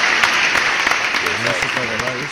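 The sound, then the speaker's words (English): Applause from a group of people, with brisk, steady clapping throughout and a voice talking over it during the second half. “One more applause for them.”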